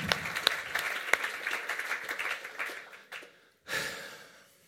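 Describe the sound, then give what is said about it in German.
Warm audience applause at a live show at the Landhaus Adler in Frutigen: lively clapping with a few sharp claps that thins out and stops after about three seconds. A brief breathy voice sound follows. “Auch für dich herzlichen Applaus.”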